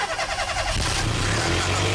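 A car engine starts and keeps running with a rough, noisy rumble that holds fairly steady and loud throughout.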